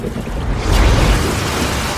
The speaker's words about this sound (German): Eine Wasserfontäne schoss aus dem Loch. Wow, was ist das? Das ist ein Kaltwassergeysir.